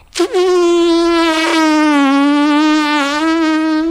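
Buzzing of bees from a beehive hanging in a tree: a loud, continuous drone with a steady, slightly wavering pitch that starts abruptly and holds for several seconds without pause.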